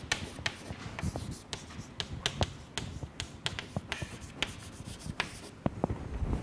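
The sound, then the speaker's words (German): Writing on a board during a physics lesson, heard as many small taps and short scratchy strokes in an irregular rhythm, fairly faint and steady throughout, with no talking. “Also, schreiben wir das mal auf.”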